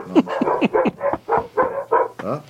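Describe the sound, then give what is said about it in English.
A dog barks in a rapid run of many short, loud barks in a steady rhythm, with no voices. “We can't hear that over the dog barking.”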